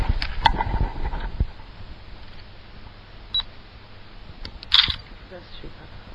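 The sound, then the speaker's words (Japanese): A camera shutter clicks a few times, sharp brief snaps spread over several seconds alongside talking and a hiss of background noise. “ちょっとカメラ撮ってみましょうか。”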